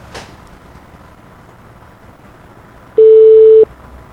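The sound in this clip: A single steady telephone line tone sounds as a call is placed, lasting well under a second, after a stretch of quiet line noise with a faint click near the start.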